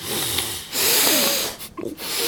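A person sniffing concentrated white pepper oil: a few long, breathy inhalations through the nose with short pauses between them, fairly loud and without talk.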